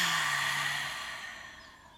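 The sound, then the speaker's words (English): A long deep exhale during a guided relaxation breathing exercise: one soft, breathy rush of air that starts fairly loud and fades steadily over about two seconds, with no talking. “Take a nice deep breath in. And release it.”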